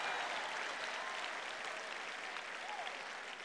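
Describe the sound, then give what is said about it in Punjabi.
Audience applause fills the whole clip: dense, steady clapping from many hands that stays evenly loud from start to finish, with no voices on top. “ਜੇ ਤਾੜੀਆਂ ਵਜਾਣੀਆਂ ਹਨ ਤਾਂ ਦਿਲ ਖੋਲ ਕੇ ਵਜਾਓ ਭਾਈ, ਬੇਦਿਲੀ ਨਾਲ ਨਾ ਵਜਾਓ।”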